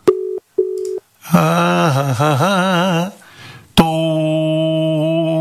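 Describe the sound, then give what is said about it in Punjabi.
A telephone call rings out while waiting to be answered: two short, steady beeps, then a loud, wavering, buzzy tone, a brief dip, and a steady, harmonic-rich tone held to the end. “ਇੰਨਾ time ਤਾਂ ਲਾਉਂਦੇ ਰਹਿੰਦੇ ਕਾਲ ਚੱਕਣ ਨੂੰ, ਦੂਜੇ ਤੇ ਕਰਕੇ ਦੇਖੀਏ। ਸੁਦੀਪ ਢਿੱਲੋਂ ਸਾਹਿਬ, ਚੱਕੋ ਕਾਲ”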